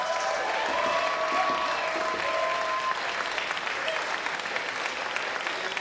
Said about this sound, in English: And most of all, we want to thank the members for making the station and concerts like this possible. VIP Club members, give yourselves a hand.